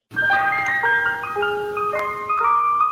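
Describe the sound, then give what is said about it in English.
Ice cream truck music plays alone: a bright, high, bell-like electronic jingle picking out a short tune of steady, sustained notes, loud and clean with no voices. “It might be because it's Halloween, but it kind of feels like a horror movie whenever you start playing ice cream music.”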